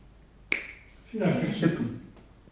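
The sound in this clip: A single crisp finger snap rings out sharply, and a voice speaking follows a moment later.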